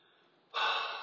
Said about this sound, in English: Whew, took a breath there.